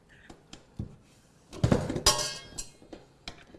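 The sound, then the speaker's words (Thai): Metal clinks and knocks as a beater is fitted into an electric mixer: a few scattered light clicks, then a louder cluster of clattering hits midway, before a couple of quieter taps. “พอเสร็จแล้วนะคะหลังจากที่เราล่อนแป้งได้แล้วนะเดี๋ยวเราจะมาใส่เครื่องตีของเราค่ะเวลาใส่เครื่องตีนะ”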